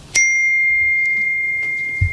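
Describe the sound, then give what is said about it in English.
A phone notification chime from an app alert on the screen: a single bright ding that strikes sharply, then rings on as a steady, slowly fading tone with no talk. “A notification popped up on the top of the screen, simply titled C&A application.”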